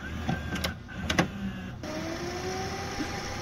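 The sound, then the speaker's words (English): A VHS tape rewinds in a VCR with faint mechanical whirring and a few light clicks, then settles into a steady motor hum with a thin tone that slowly climbs in pitch. “I'm rewinding my VHS tape where I'm going to be charged ding, by Blockbuster. Ding, ding, ding. VHS rewinding.”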